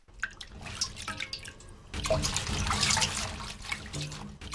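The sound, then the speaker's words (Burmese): Running water as mustard greens are washed: a steady splashing stream with scattered drips, fairly faint at first, then fuller and louder partway through. “မုံညင်းရွက်ကိုရေးစေးတဲ့အခါမှာအရင်ကိုတည်တည်ချာချာဆေးဖို့လိုပါတယ်”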